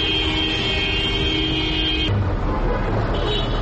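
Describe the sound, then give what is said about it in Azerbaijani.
Queued cars in Baku street traffic: one long, steady horn blast holds for about two seconds over constant engine and road rumble, then a shorter horn sounds near the end. “Boyunca bir-birinin ardınca düzülən maşın kərvanı, aramsız siqnal səsləri, yol polis əməkdaşlarının xəbərdarlıqları.”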